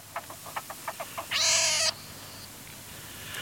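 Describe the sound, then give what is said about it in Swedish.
Young martens calling: a rapid series of short, faint chirps, then one louder, longer, harsh wailing cry, followed by quiet background hiss. “då måste vi lyssna lite på hur det låter om mårdungar.”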